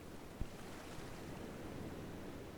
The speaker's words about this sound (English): By turning attention to the sound of the waves